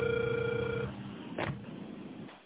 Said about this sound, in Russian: Я продолжаю дозвон. Пожалуйста, подождите немного.